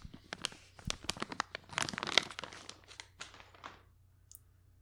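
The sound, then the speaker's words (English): A bag of crisps is crinkled in many sharp, irregular crackles and rustles that cluster most densely in the middle and then thin out toward the end. “This is some subpar chip bags content. Oh, sorry, crisps bag. I've got me a bag of crisps.”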